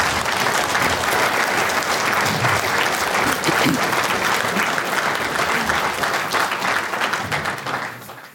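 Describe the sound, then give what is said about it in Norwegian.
Applause at a conference in northern Norway welcomes a panel onto the stage, among them Prime Minister Erna Solberg. Full, sustained clapping from many hands holds steady for several seconds, then fades away at the close. “Så jeg syns dere skal ta vel imot statsminister Erna Solberg, NHO-sjef Ole Erik Almli, rektor ved UiT Norges arktiske universitet, Anne Husebekk, og konsernsjef Liv Ulriksen fra sparebank Nord-Norge.”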